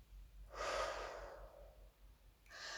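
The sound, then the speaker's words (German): A slow, deep exhale during a guided meditation, a single long breathy rush of air that starts strongly and fades away gradually, followed by the faint start of another breath. “Und nochmal tief einatmen, kurz anhalten und vollständig wieder ausatmen.”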